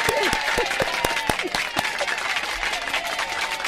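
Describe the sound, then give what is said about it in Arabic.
Audience applause on a television talk show, with dense, steady clapping from many hands and sharp individual claps throughout. “تصفيق تاني بقى.”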